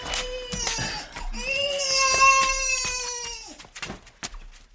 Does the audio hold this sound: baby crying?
yes